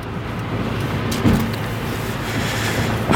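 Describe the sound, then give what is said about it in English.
Car engine and road noise while overtaking another vehicle on the road, a continuous even rumble that swells slightly in places, with no voices. “I got to pass somebody else. Hold on. Come on. Don't speed up.”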